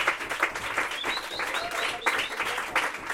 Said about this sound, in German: Applaus nochmal für Jamal.